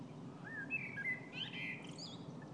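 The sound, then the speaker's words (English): Birds sing outdoors near a field in Dublin on a sunny day, with faint, thin chirps and whistled trills over a low, steady background rumble. “And I just take a listen to the birds singing in the background. It's just beautiful.”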